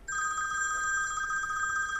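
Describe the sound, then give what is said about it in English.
A telephone rings, a steady electronic trilling ring that starts abruptly and holds unbroken at a bright, high pitch to the end. “Don't answer the phone, Penny. Just let it ring.”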